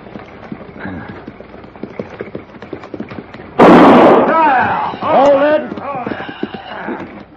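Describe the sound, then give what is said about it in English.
In a western drama, a gunshot is fired into the air at a turn by a dry lake. One loud blast cuts across the steady clip-clop of horses pulling a buckboard, and men's voices follow. “If I fire again, Morgan, it won't be in the air.”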